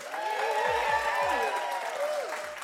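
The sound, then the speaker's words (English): Warm applause from a conference audience welcoming two guests, a steady, even roar of clapping that stays full for the whole of the short stretch. “please give a warm welcome to Nik and Emma Pears”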